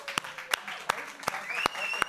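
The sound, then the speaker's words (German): Audience clapping at a gala show: six sharp, loud claps land at an even, unhurried beat, each standing out cleanly above a softer background. “Wir wollen einen donnernden Applaus haben.”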